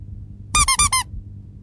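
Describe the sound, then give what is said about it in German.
Four quick, high squeaks from a rubber duck toy come in close succession, bright and piercing over a faint low background. “Es wird eine Quietscheente, das gab es noch nie und das wird der Hammer”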